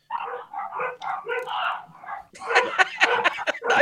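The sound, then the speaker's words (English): A dog barks and yips in a rapid series of short, sharp calls, followed by a louder, rougher burst of mixed sound toward the end. “That's the dog saying, you're playing Middlesbrough.”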